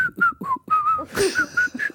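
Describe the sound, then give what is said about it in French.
A person whistling a song tune, a quick series of clear, high notes that shift in pitch, alone with no talk. “Quelle est la règle concernant le sifflotement? Voilà, est-ce que siffloter est autorisé?”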